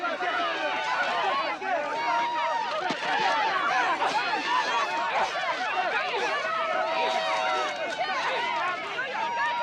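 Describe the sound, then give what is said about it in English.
A jeering crowd gathers around a knife fight between two women: a thick tangle of many overlapping shouting and chattering voices, with some snickering, sustained and loud for the whole stretch. “He pushes through the jeering crowd to break up the fight.”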